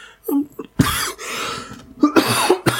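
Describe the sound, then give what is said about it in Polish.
Harsh, breathy coughing comes in a few bursts, including one long hacking fit, with brief voiced sounds between them. “Przepraszam, znowu się tutaj rozkaszlałem troszeczkę.”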